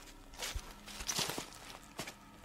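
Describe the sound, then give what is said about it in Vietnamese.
Footsteps of someone walking behind, a few soft, irregular steps, faint and with no other sound over them. “Đằng sau lưng anh tự nhiên vang lên tiếng bước chân của ai đó.”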